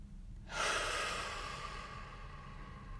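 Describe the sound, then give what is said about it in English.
One deep breath in and out during a guided breathing exercise: a loud airy rush starts suddenly, then slowly fades into a long, soft exhale with no talk. “Let's take a deep breath.”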